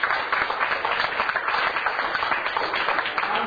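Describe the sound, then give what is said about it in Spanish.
Strong applause at a business meeting, dense continuous clapping from a crowd, loud and even throughout with slight swells. “Yo quiero un fuerte aplauso para el señor Ricardo Álvarez.”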